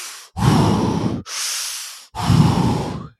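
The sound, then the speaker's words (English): Deep, forceful breaths alternate in and out, each a long, loud rush of hissing airflow with brief pauses between, done almost as fully as possible as part of a deep breathing exercise. “you do about 30 seconds of deep breathing or 30 deep breaths where you're breathing in and out, like almost as much as you can”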